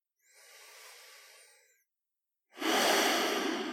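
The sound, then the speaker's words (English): Two slow, deep breaths during a guided relaxation: a long, soft airy breath, a short pause, then a second longer breath that is louder and breathier, with no talk. “Now, take a couple of slow, deep breaths in and out.”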